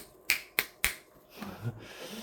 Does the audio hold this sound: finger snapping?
yes